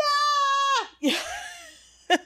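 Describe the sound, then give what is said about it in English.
A voice imitates a fangirl's scream at a concert as the band walks on stage: a high, sustained shriek that drops away at the end, then a breathy, excited cry and a brief final yelp. “just that fangirly scream that you didn't know you had in you until you see the guys you've been thinking about and watching on TV”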